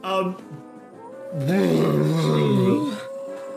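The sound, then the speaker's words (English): Snarl of a direwolf in a tabletop fantasy game, imitated by a human voice as a rough, drawn-out growl with a wavering pitch, preceded by a brief vocal sound. “Ariadne, you smack him good across the face and the direwolf lets out a snarl.”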